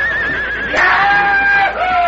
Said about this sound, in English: Then the two cowhands leaped aside, and the stallion went into action.